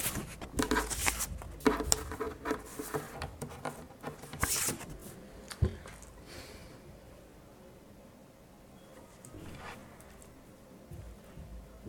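A card is picked from a deck of blue cards, giving faint papery rustles, flicks and light taps that are busy in the first half and then thin out into quiet handling noise, with no talk.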